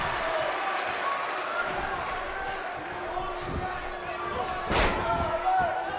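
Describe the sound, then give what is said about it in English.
A wrestler's heavy body slam onto the ring mat during a match: a single sharp thud rising briefly above steady crowd noise and ongoing commentary. “A huge slam by Big E.”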